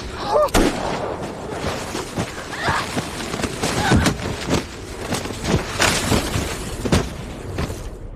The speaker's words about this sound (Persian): صدای تیر بود.